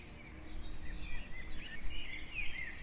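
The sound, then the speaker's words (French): Faint birdsong in a calm meadow at dawn: a few thin, high chirps and whistled phrases drift over a soft, steady background hush, growing slightly clearer near the end. “Il règne un silence envoûtant, ponctué çà et là de jolis chants d'oiseaux.”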